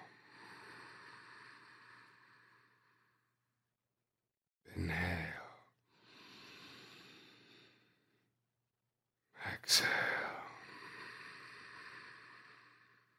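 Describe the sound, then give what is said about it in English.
Deep breathing in and out during a guided breathing exercise: two full, airy breaths, each about a second long, separated by a pause, over a faint steady tonal background. “Inhale. Exhale.”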